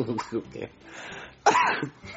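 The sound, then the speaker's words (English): A single harsh cough from a man hanging out with friends, one sudden loud burst following soft, murmured vocal sounds and quiet breathing. “I coughed.”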